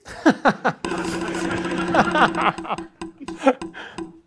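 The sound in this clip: A prize wheel spins with a run of sharp rattling ticks. A steady humming tone runs beneath, and more scattered clicks come toward the end.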